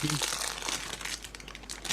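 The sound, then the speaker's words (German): Crinkling of a plastic bag holding spiced almonds left over from Christmas: continuous bright, crackly rustling throughout, moderately quiet, with a voice briefly heard at the start. “Ich esse eine Gewürzmandel, die noch von Weihnachten übrig ist. Nicht in so einer Plastiktüte. Du musst ein bisschen knistern.”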